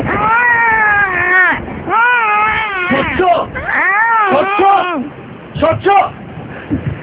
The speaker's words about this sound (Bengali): কবরের মাটি খুলল তো, কবরের ভেতর থেকে কি কান্না শব্দ আসছে?